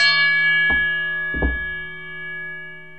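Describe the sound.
A bell chime used as an entrance cue, with a steady ringing tone rich in overtones and two distinct strikes that swell the sound before the tone slowly fades.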